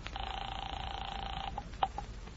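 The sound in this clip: A telephone is dialed in a radio drama. A steady dial tone hums for over a second, then stops, and a few short separate clicks and beeps follow as the number is entered.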